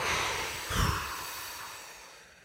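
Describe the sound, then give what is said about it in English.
A long, whooshing exhale during a breathing exercise, a steady breathy rush of air that swells briefly and then fades slowly until it is faint. “you're going to exhale with a whooshing sound. Like”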